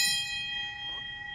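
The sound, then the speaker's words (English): A bell rung in a hospital to mark the end of treatment gives a sustained, bright ringing tone with steady high overtones that hold throughout, moderately loud. “You know, if you ring the bell, it's all over. Well, here she goes.”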